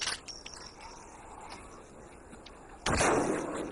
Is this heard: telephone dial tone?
no